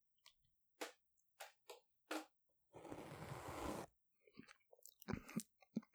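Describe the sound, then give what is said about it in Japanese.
Chewing and biting of durian fruit, with a few short moist bursts, then a longer dense crunching stretch, then more scattered chewing noises. No talk. “じゃあ、実食しています。ドリアン、いただきます。”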